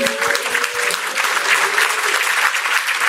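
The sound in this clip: Applause at a community presentation of a data book on Chicago's North Lawndale neighbourhood, given in thanks to a funding foundation. The clapping is brisk and even, with a few sharp claps standing out near the start.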